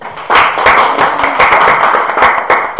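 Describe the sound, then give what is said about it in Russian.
Applause from many hands clapping, a dense, steady, fairly loud wash of claps that starts after a brief quiet moment and continues to the end. “Хорошо. Аплодисменты.”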